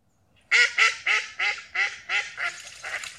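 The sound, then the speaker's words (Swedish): Ducks quack in a steady run of about nine harsh, nasal calls at an even pace, the last few growing softer, with no other sounds around them. “Ja, ja, änder. Hur kul är deras läten egentligen?”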